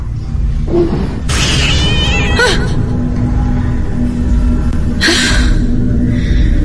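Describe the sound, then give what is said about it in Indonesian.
A black-furred cat meows in a few drawn-out, wavering cries over a steady low rumble. The longest cry comes early and a shorter one follows later. “ternyata di atas kursi itu ada kucing”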